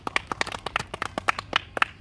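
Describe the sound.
Brisk hand clapping welcomes a guest from Gambia, a quick string of many sharp, separate claps at an irregular pace, sounding like only a few people clapping.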